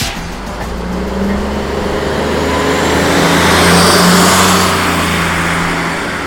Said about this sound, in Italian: questo è il suono più tipico della città, il traffico.